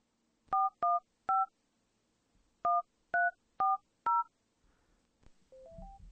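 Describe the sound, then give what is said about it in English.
Telephone number dialed on a keypad: seven clear touch-tone beeps in uneven groups, each a short steady two-note tone, followed by a brief stepped run of rising tones and a low rumble at the end. “And you're going to hear me dial as I pull this up here.”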